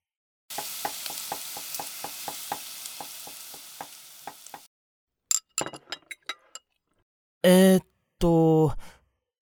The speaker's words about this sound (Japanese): 昨日の君に負けないように頑張って美味しい料理作るね。